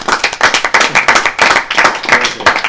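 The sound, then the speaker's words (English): Audience applause at a one-year anniversary finale: dense, rapid clapping from many hands, loud and steady throughout with no voices on top. “This is the finale for the first year of the Prog Pod. We give a hand for that.”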